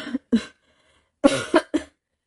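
A man with a cold coughs: two short coughs, a pause, then a quick run of three harsher coughs, loud and alone.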